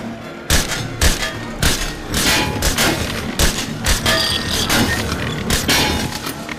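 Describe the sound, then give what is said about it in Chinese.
Gunshots at a fairground shooting booth: many sharp, loud cracks fired in quick, fairly even succession, with a few clustered closely together, over a constant rumbling background. “五块钱打五枪。 接手运气好， 人人都是赢家。 我还想打。 谁想做大？ 我们再打。”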